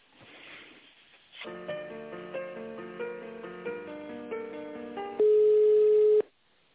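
Telephone line tones play while a call is connected: a sequence of short electronic notes changing pitch, then one louder steady tone held for about a second before the line falls quiet.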